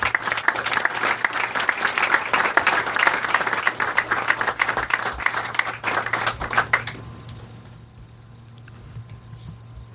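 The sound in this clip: Audience applause welcoming Shadi Hamid at a Politics and Prose author talk: dense, crackling clapping that stops abruptly about two-thirds through, leaving a quiet low hum.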